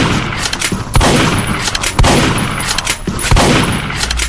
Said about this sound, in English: Shotgun. There's a shotgun.